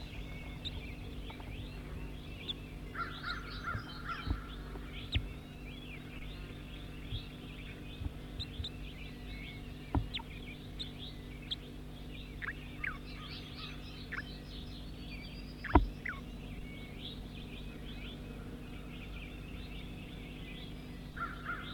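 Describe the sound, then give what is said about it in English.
Bird calls, a scattered series of short, sharp and partly harsh caw-like notes over a steady low hum, with one louder call standing out near the middle. “That's bird 5-9, stop.”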